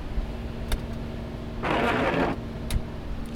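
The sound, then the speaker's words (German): A car's windscreen wiper is switched on: a small click, then a brief swishing sweep of noise, then another click, all over a low, steady engine rumble. “warten Sie mal, ich muss mal den Scheibenwischer betätigen.”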